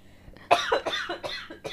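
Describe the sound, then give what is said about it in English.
A person with asthma coughing in a quick fit of several harsh, loud coughs in close succession. “Yeah, I was going to say, I have asthma. That's why I'm coughing.”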